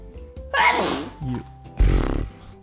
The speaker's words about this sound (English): You just sneezed so hard that you dropped your headphones.